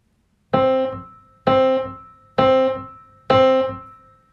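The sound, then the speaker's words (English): A piano plays four evenly spaced quarter notes on middle C. Each is a rich, ringing tone that strikes firmly and then fades before the next, with nothing else heard. “It's just four quarter notes that I'm playing on C”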